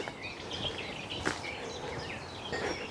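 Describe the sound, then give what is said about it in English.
Garden warbler song on a morning walk in the Brecon Beacons, a faint, rapid, scratchy warble of bright twittering phrases that runs on over a soft background hiss. “The longer-winded scratch here. It's the garden warbler. Yeah. It really does warble.”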